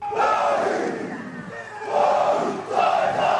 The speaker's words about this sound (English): The royals were given an official Maori welcome with a haka performed by school students.